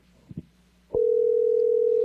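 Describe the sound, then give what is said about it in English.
A telephone dial tone heard while placing a call: two soft clicks, then a loud, steady, unwavering hum that holds to the end. “I'm going to make a phone call while I'm on the radio. Boy, isn't this stuff getting scary? All right. Let's see if someone answers the phone.”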